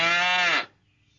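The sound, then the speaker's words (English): A cow moos once, a loud, rich, drawn-out call lasting just over half a second that cuts off abruptly into quiet. “Cows moo.”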